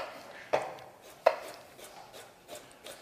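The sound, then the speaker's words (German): A knife cuts fresh ginger into strips for a curry: a few sharp, faint chopping knocks on a board, spaced irregularly and heard alone. “So, hier unseren Ingwer, den schneiden wir auch ein bisschen kleiner für das Curry. Das schneiden wir hier einfach in Streifen.”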